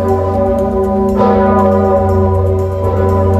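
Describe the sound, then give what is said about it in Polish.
A large historic cathedral bell, rung by hand by bell ringers in Kraków as it has been since the sixteenth century, sounds a deep, sustained humming toll. Two fresh strikes renew its rich, ringing tone over a steady drone. “Słynny dzwon uruchamiany jest ręcznie przez wawelskich dzwonników od XVI wieku.”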